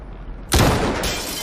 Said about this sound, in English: Team One, this is Command. Take your shot. Repeat. Take your shot.